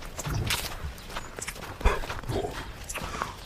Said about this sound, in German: Ja, lass mal da lang latschen hier.